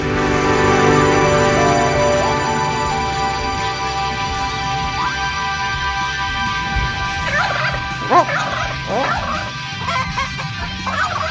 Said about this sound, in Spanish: Cómo mola esto de los pollos, ¿eh? Increíble. Bueno, pues... Es un pollo despistado.